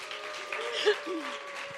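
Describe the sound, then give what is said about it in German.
Applause from a church audience for the worship band gives a steady, fairly quiet wash of clapping, with a voice heard over it. “Geben wir unserem Lobpreisteam mal kräftigen Applaus.”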